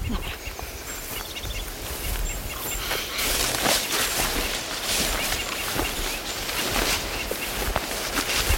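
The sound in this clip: Footsteps rustling and crunching through blackberry brambles and other undergrowth shrubs, with legs lifted high: a dense, continuous scratchy rustle of stems and leaves with frequent small snaps, fairly steady in loudness throughout.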